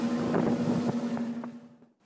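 Boat moving through Folkestone Harbour in wind: a steady low engine hum under broad rushing wind noise, the whole sound fading away toward the end.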